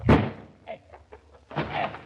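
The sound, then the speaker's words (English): A door being forced open gives two heavy blows: a loud thudding crash, then a second duller bang after a brief pause, with faint scraping in between. “There's nothing for it but to bust in the door.”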